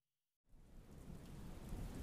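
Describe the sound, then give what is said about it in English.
Thunderstorm with rain: after a short silence, dense, steady rain noise with low rumbling thunder sets in and grows slightly louder, continuing to the end. “The forecast says there's a storm heading in. You can smell it in the air.”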